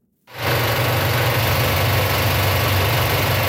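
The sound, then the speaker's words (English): IMAX film projector running in a movie theatre in Halifax: after a brief moment of silence, a loud, steady mechanical whirring drone with a deep low hum sets in abruptly and holds constant. “That's the sound of the IMAX film projector working at Cineplex's Scotiabank Theatre in Halifax.”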